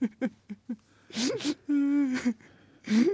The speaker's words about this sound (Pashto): ژاړه مه، او نه ژړه هم کومه ګټه ورته کوي.